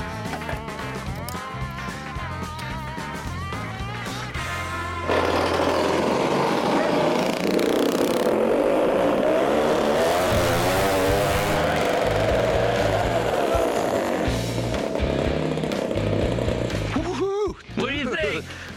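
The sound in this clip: A go-kart engine being driven out runs as a continuous, rough, buzzing drone that grows noticeably louder after about five seconds and stays strong, with voices heard over it.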